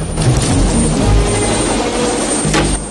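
Loud, steady helicopter rotor and engine drone from a military chopper at a base in a Rambo film scene, a constant heavy rumble with a thin high whine held over it and no talk.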